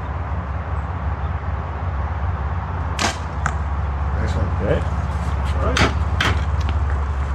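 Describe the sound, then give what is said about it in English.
An arrow shot from a bow during a turkey hunt: a few sharp, brief cracks and snaps over a constant low rumbling background, with faint voices nearby. “In this case, I'm going to shoot my bow, and then we test after I shoot my bow.”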